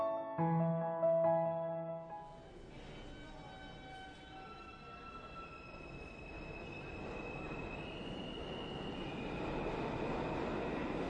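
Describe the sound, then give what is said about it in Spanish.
A subway train car interior carries a steady rolling rumble with thin, high wheel squeals drawn out over it. The noise grows slightly louder toward the end, and no one speaks. “entra al vagón de metro. Suena Someone You Love de Tina Dico en sus cascos.”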